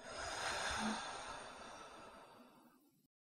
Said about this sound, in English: Let's do that again. Breathe in and out.